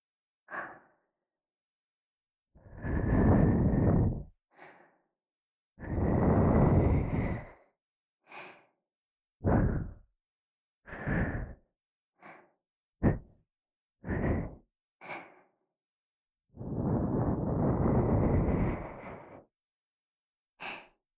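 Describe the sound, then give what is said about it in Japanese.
Soft, breathy puffs of air blown into the listener's ear in ASMR style: many airy whooshes, some long and drawn out, others short and sharp, each separated by silence. “お耳ふうをして、敏感になったあなたのお耳に”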